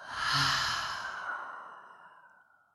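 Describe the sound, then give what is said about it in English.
A single deep exhale out through an open mouth after an inhale through the nose, a soft, breathy whoosh that swells early and then slowly fades away over nearly three seconds, heard alone. “So go ahead and inhale in through the nose. Open your mouth and exhale.”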